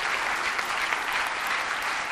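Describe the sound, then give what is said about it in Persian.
Steady audience applause, a dense, even wash of many hands clapping together with no talk, holding at a constant level throughout. “به افتخارشون دست میزنم”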